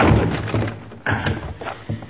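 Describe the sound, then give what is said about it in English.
Heavy, dull thuds of a shoulder ramming a wooden door to force it open, a few separate impacts spaced roughly a second apart, each followed by a rough, noisy decay. “Now put your shoulder to this door. Now.”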